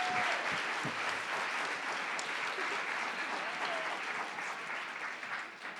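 A live-show audience gives steady, fairly quiet applause as the hosts are introduced, with even clapping throughout that thins slightly toward the end.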